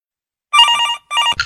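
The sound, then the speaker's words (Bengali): A telephone rings in loud, buzzy electronic trills, two bursts separated by a short gap, with a third just starting as the sound cuts off. “ওই দেখো আবার phone, আবার phone. ধরো না ধরো না, ধরো না।”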